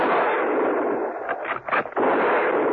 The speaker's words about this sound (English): They heard the shots from the deserted garage and ran towards it.